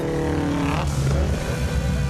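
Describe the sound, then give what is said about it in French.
Subaru car engines rev in a brief, steady roar, the tone shifting partway through before the droning engine note carries on to the end. “Faites rugir vos Subaru, les gars !”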